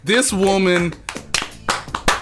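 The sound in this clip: People clap to honour a producer: a few scattered, uneven hand claps with sharp slaps that follow a drawn-out vocal whoop at the start.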